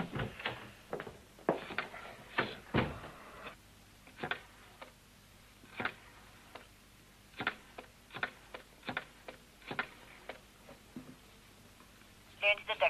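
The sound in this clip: Dialing of a telephone to call an office: many short, sharp clicks at uneven intervals, fairly faint over a low steady hum.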